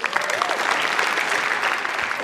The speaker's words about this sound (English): Not 100% sure he deserves applause, but sure.